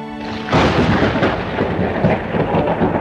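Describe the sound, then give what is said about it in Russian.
Thunder from a thundercloud over a town square: a quieter wash opens, then a sudden loud crash breaks in and spreads into a heavy, sustained low rumble that rolls on without pause to the end. “Над площадью громыхнула грозовая туча.”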